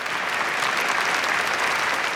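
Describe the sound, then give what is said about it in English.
Thousands of people applaud in a park and inside an Abbey, a dense, steady wash of clapping that stays even and loud throughout, with no single claps standing out. “Video footage shows thousands of people applauding in the park. Inside the Abbey, everyone applauds except the royal family.”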